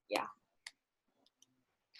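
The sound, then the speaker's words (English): Typing on a keyboard comes through as a few sparse, faint clicks and taps separated by short pauses. “You're actually typing. Don't do that. Well, I am looking it up.”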